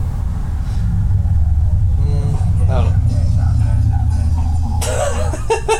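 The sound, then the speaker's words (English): Loud, bass-heavy music booms from the speakers of a car driving past a house, a steady low rumble lasting throughout while people talk over it. “someone just drove past our house with their speakers, as loud as possible”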